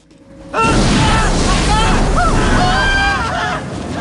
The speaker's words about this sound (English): As he does so, flames shoot out of the wall, setting the man and his accomplice on fire.